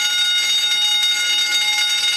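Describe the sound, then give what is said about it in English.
A never-ending, alarm-like bell rings outdoors in a downtown Winnipeg courtyard, a steady, bright, high ringing tone that holds at an even level throughout without a break, with no talking. “Sounds just like a fire alarm or like a school bell or whatever. Never ending.”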